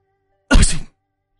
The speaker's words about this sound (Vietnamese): Vừa ra khỏi dịch quán, hắt hơi một cái thật mạnh.